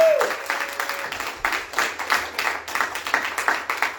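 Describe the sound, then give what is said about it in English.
Audience applause welcoming a new member at a church gathering, continuous clapping from many people that pulses steadily for the whole stretch, with a brief tone fading out at the start. “So let's give it up for Rachel.”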